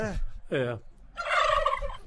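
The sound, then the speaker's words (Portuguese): Turkey gobbling plays as a sound effect: two short warbling calls, then a longer, rapid, loud gobble, with no voices over it. “Olha o peru aí, solta o peru.”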